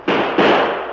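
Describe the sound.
A gunshot sound effect in a Western radio drama: two sharp, loud blasts in quick succession, each a broad burst of noise, the second decaying over most of a second.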